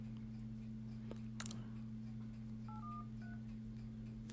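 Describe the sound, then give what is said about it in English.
Telephone being dialed: faint clicks, then a couple of short dual-pitch keypad tones, all quiet over a steady low electrical hum. “So sorry, we don't have any dialing music, I'm afraid, but I'm just going to dial him right now.”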